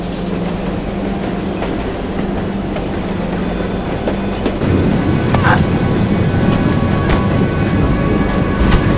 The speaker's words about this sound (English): She watches a goods train rumble by.